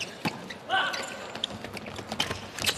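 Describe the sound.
A volleyball serve struck during a school match between teenage teams, heard as a few sharp ball smacks over faint background voices.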